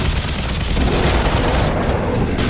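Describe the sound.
Rapid gunfire at an armless, crystal-blue-skinned creature with sharp teeth and a horned snout: a loud, dense, unbroken rattle of shots that blur together without pause.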